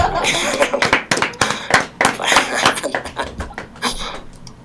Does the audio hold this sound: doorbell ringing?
no

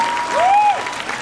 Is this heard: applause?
yes

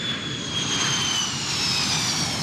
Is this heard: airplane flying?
yes

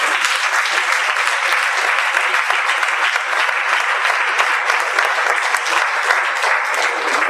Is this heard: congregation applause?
yes

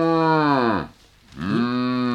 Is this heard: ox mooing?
yes

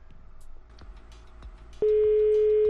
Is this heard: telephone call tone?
yes

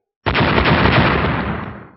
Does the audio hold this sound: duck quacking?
no

